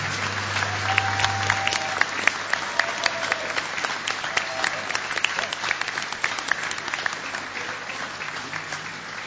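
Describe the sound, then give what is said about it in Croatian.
Audience applause for the Armed Forces of Bosnia and Herzegovina orchestra: dense, steady clapping that runs unbroken through the whole stretch, with a low hum underneath at the start. “Molim vas jedan veliki pljesak za orkestar oružanih snaga Bosne i Hercegovine.”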